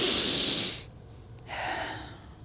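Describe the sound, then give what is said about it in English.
A person demonstrates a quick, loud deep breath in, the way people often inhale incorrectly: a rushing, hissy intake, then after a short pause a softer second breath. “a lot of times when people take a deep breath in, this is what it sounds like.”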